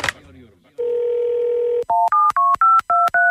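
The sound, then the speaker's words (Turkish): A phone number is dialed after a short burst of voice: a steady dial tone holds for about a second, then six quick touch-tone beeps follow in an even rhythm, each at a slightly different pitch. “Bir arayayım mı bir konuş istersen bir arıyorum bak.”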